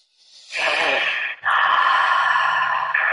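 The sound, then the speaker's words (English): A deep breath: a rising airy inhale, a brief pause, then a longer, fuller exhale with a soft voiced, sighing tone that carries to the end. “Just go ahead and take a deep breath.”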